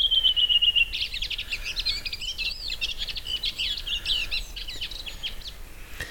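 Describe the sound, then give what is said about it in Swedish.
A redwing thrush sings one regional dialect of its song: a clear, high whistled note, then a long run of rapid, scratchy twittering phrases, fairly loud and alone. “En av rödvingetrastens alla dialekter”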